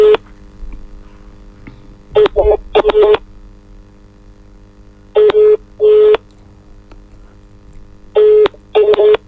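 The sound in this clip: Telephone keypad tones dialing a number: short, bright electronic beeps in three separate clusters with pauses between them, over a steady low mains hum.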